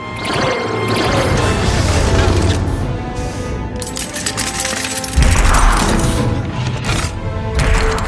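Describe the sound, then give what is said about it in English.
Assembly line machinery moving in a video game: a loud, dense, continuous clatter of metallic hits, cracks and crashes, with a heavier low thump about two-thirds through. “Why don't you use your force powers to stop the whole fucking assembly line from moving?”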